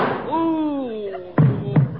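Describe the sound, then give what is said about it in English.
Two sharp gunshot sound effects in a radio comedy come close together after a drawn-out vocal exclamation that falls in pitch. “Griffith, you shot him. No, Gwen, I didn't shoot him. Well, somebody did.”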